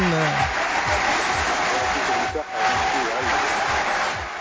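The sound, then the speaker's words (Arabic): Applause welcoming an award-winning filmmaker back from a festival, a thick continuous roar of clapping with voices underneath, briefly dipping midway before surging again. “هذه التصفيقة جيك من عنا مباشرة.”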